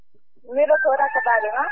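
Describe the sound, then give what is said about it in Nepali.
A rooster crows on a day of Hindu fasting: one loud, harmonic crow that rises in after a quiet start and carries on in a series of wavering syllables to the end. “कुखुरा धेरै करायो आज एकादशीको दिन कुखुरै मात्रै कराउँछ यहाँ”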